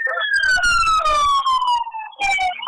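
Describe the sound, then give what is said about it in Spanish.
Siren of an emergency medical ambulance arriving at an accident scene: a loud wailing tone that glides steadily downward for about two seconds, breaks briefly, then starts again high. “viene ya la ambulancia de SAMU, ¿no? La ambulancia de SAMU”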